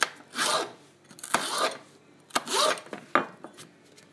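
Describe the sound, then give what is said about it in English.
A knife slices through peppers in a few short, rasping strokes with brief pauses between them. The strokes are fairly faint, and there is no talk. “Now, that is me slicing my peppers. I love the sound it makes. Just slices and then I'll dice them.”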